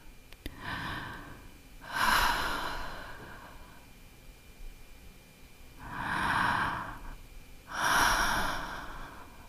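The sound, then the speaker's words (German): Three slow, deep breaths in and out during a guided meditation, each a soft, breathy rush of air rising and fading alone in near silence. “Und dazu bitte ich dich nochmal dreimal tief ein und auszuatmen.”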